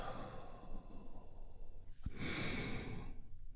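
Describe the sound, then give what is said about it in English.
A deep, slow breath is drawn in and then released in a long, audible exhale as part of a guided relaxation exercise. “we do that by taking a big, deep healing breath right now. Here we go. And release.”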